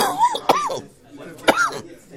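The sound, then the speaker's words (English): Two sharp coughs from a speaker during a religious text lesson, each a brief burst set among speech-like voiced sounds. “Apologies for the coughing.”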